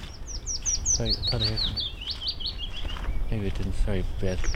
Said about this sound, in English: I thought I heard a willow warbler singing there.